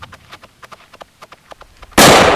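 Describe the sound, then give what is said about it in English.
A single loud gunshot in a train yard, fired at a container: a run of faint, rapid ticking gives way to one sudden, powerful blast that stays loud through the end. “The shot struck the container behind Angel, barely missing her head.”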